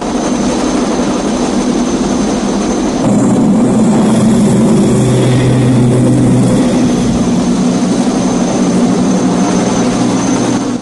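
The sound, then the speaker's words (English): A gunship helicopter's engine and rotors roar loudly and steadily as it flies over a jungle and descends toward a river. The drone's tone shifts slightly a few seconds in, then continues unbroken with no voices. “He pilots the gunship over and descends to the river”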